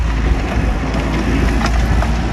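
A mini excavator shapes a jump ramp and banked turn on the rocky red trail of the Métabier bike park, its engine giving a loud, steady, low rumble throughout.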